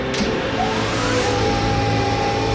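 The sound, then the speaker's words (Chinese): An engine accelerates during a test run, giving a loud, dense, steady roar with droning low tones and a faint whine that climbs in pitch. No voices are heard. “试车启动。 是。 加速， 加速，”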